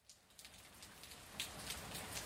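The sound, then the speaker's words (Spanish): Light drizzle falls on a street as a soft, faint hiss of fine raindrops. It swells slightly over time and no voices are heard. “Ya estoy en la calle. La llovizna cae. Y viendo yo la manera como llueve”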